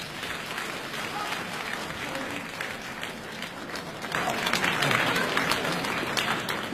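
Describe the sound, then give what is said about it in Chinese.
An audience applauds to welcome two performers onto the stage at a sketch comedy contest. The dense clapping swells noticeably louder in the second half, with a voice faintly underneath. “掌声有请两位。 掌声。”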